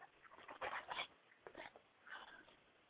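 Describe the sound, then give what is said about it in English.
An excited dog barks in faint, short yapping bursts that come in a few uneven clusters with brief pauses between them. “and my dog's going crazy, that doesn't help either”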